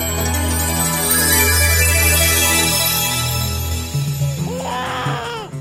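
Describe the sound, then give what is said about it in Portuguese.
A baby cries in short, wailing bursts near the end, after continuous music fades down. “Ai, meu Deus, o que será que esse menino tem que não para de chorar?”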